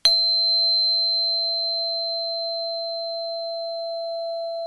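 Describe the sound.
A single pure tone sounds alone for almost five seconds. It starts with a brief struck attack, then holds one steady pitch with a faint higher overtone and fades only slightly.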